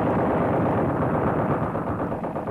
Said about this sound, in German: Wenn man bei dieser Waldlichtung auf dem Schlachtfeld genau lauscht, ist der Lärm der Maschinengewehre, das Trommelfeuer, das Einschlagen der Granaten noch heute zu hören.